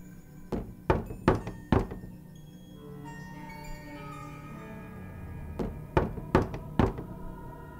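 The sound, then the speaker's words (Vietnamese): Knocking on a bedroom door: two bursts of four firm, hollow knocks each, separated by a quieter stretch of a few seconds. “Nằm chưa ấm chỗ, thì ở ngoài cửa bỗng vang lên tiếng gõ cửa buồng cô.”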